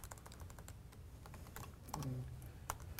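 Typing on a computer keyboard gives many quick, irregular key clicks at a soft level. The taps grow a little denser and louder toward the end, with no talk.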